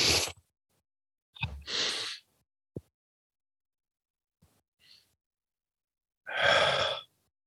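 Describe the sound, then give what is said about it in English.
Deep belly breathing, drawn in through the nose and let out through the mouth: a few loud, airy breaths separated by long quiet pauses, with a couple of faint clicks between them. “you notice my shoulders didn't go up and down. I was just breathing through my belly.”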